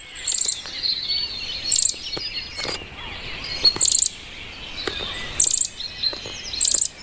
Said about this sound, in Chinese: 雏鸟一天天长大，出生三周后，雏鸟钻出树洞，